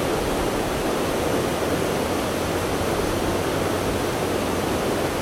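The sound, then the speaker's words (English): Flowing water in a natural setting: a continuous, even rushing hiss with no distinct events, steady in level and with no voices. “I am inspired by this wonderful nature, by the flow of the water.”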